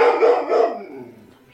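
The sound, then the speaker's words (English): A dog barking, a few loud, sharp barks in quick succession that trail off into quieter yelps, with no talking over them. “That, ladies and gentlemen, was my step dog. He doesn't like my cat.”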